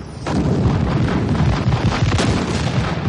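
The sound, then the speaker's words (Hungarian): An artillery battery fires in a radio drama battle scene. A dense, rumbling roar of gunfire starts abruptly and stays loud throughout, with no voices. “Az üteg újra tüzel.”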